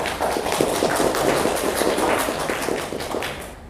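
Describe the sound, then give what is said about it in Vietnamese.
Applause from an audience at a Buddhist dharma talk: dense, steady clapping that holds at a fairly even, moderately loud level throughout. “các vị vỗ tay mình nghe mừng quá nghe.”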